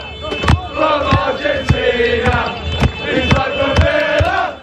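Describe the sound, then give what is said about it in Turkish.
English Aston Villa football fans chant a march together with a delivery courier, using an order basket as a drum. Voices sing in unison over a run of regular, sharp thumping beats. “İngiliz taraftarlar bir kuryeyi tezahüratlara dahil etti. Beraber marş söylediler.”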